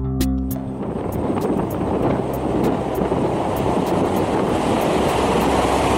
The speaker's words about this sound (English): That's the sound of a supersonic jet taking off.